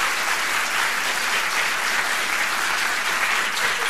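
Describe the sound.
Audience applause greeting the hosts of a Polish Radio Trójka talent evening, dense and loud, clapping continuously without pause.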